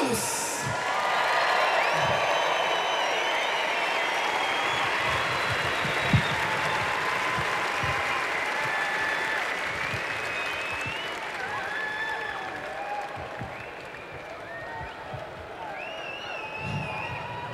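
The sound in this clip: Applause from a live concert audience in an arena in Cologne, dense sustained clapping from a large crowd that slowly thins and softens toward the end.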